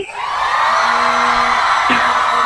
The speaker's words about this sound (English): Thousands of cheers and one honk from the Vuvuzela.